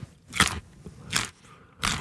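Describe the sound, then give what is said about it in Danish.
Three loud, crisp crunches of biting into fresh Norwegian carrots in season, evenly spaced with quiet pauses between, each a short burst of crackling snap. “Her er en lydprøve av norske gullerøtter i sesong, utført av Johannes Høsflott Klæbo.”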